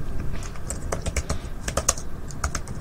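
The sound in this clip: Notes typed on a computer keyboard: many quick, light keystrokes clatter in an uneven rhythm, fairly faint and with no talk.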